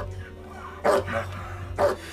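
A leashed German Shepherd, led in by a uniformed officer, barks twice: two loud, sharp barks about a second apart against a quiet background.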